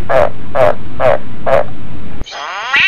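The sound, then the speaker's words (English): A frog makes unusual calls: four evenly spaced, raspy bleating cries about half a second apart, then a sudden break into a higher, wavering, strained call with layered tones. “I did not know frogs made these types of fucking noises.”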